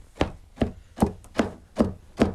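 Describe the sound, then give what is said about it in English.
Big combs stab down on a woven wool rug on a loom, packing dark black and red yarn into the pattern: six sharp, dry thuds in a steady, evenly spaced rhythm with nothing else heard. “They take these big combs to sort of stab the end of the rug. That's that sound you're hearing right now.”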